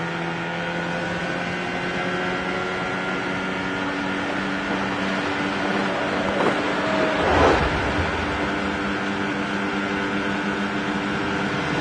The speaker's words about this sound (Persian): گروه آماده ی رفتن با قایق به دل اروند میشه.